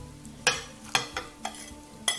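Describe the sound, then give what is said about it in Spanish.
A utensil stirs eggs with caramelized onion and potato in a pan, making several distinct scraping clinks at an uneven pace over a quiet background. “5 huevos, una cebolla, 800 gramos de patata. La vamos a echar aquí.”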